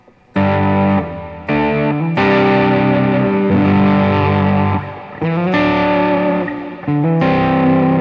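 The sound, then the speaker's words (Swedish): An electric guitar played straight into the amp with no pedals strums five loud chords, each ringing out and sustaining before the next, alone with no talk. “Så här låter gitarren då bara rakt in.”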